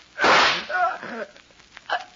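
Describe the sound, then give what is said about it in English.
A gunshot from a pistol thought to be empty gives one loud, sharp crack with a brief decay, followed by a few softer, smaller sounds. “You. You shot me. The gun wasn't empty.”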